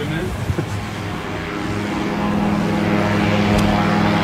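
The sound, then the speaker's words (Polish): Propeller engine of a light aircraft with a Rotax engine during taxiing and takeoff, a steady buzzing drone that grows somewhat louder in the second half. “Zaczyna się start. Będziemy mogli obserwować kołowanie, to krótkie zatrzymanie i start. Jest to silnik Rotax,”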